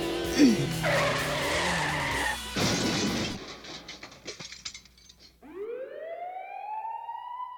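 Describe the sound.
A speeding car skidding, its tires squealing in harsh, sweeping screeches over rough rumbling noise, then a high, wailing tone that rises and repeats.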